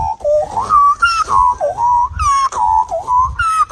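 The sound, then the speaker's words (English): A man imitates an Australian magpie call, producing loud, fluting, warbling tones that slide up and down in repeated phrases, continuing without pause through the whole stretch. “an Australian has gone viral over the weekend with 1.5 million views of his magpie impression, which sounds like this.”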